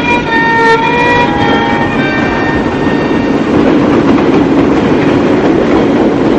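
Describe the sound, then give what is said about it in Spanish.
A diesel train pulls into the station at Zafra and stops at the central platform, a loud, steady rumble and rattle of the cars, with faint high whining tones during the first couple of seconds. “Un tren a gasoil llega a la estación de Zafra y se detiene en el andén central.”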